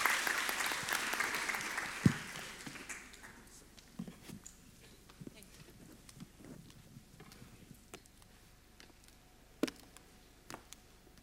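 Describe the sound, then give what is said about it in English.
A church audience applauding to welcome a reverend who is about to preach: a loud burst of clapping that fades over the first few seconds, followed by scattered, isolated claps and taps. “So let's put our hands together.”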